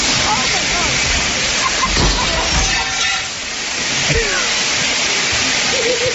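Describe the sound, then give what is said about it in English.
A huge gush of water from a broken sprinkler head in a commercial sprinkler system, a loud, steady rushing hiss that runs unbroken throughout. “That is so much water. It's not like a sprinkle, it's a huge gush. Like she broke the sprinkler head.”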